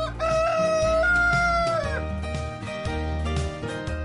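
A rooster crows once, long and loud, holding a bright, steady call before it falls off at the end, with lower sounds continuing underneath.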